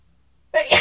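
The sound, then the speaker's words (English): A single loud sneeze bursts out abruptly after near-silence, a sharp breathy blast followed by a second, stronger release that trails off at the end. “I'm going to sneeze now.”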